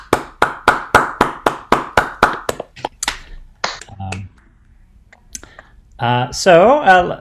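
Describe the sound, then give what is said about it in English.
Applause from an online audience unmuting after a talk: a quick, steady run of sharp hand claps, then a few scattered claps, followed by a person speaking. “Everyone should feel free to unmute themselves to give Benny a hand.”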